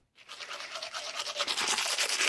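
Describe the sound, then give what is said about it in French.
Toothbrush brushing teeth, a steady scratchy scrubbing that grows slightly louder, with quick repeated strokes running continuously and no voices. “vous l'avez d'ailleurs sans doute utilisé ce matin, c'est la brosse à dents, un objet tout simple devenu indispensable à nos vies modernes.”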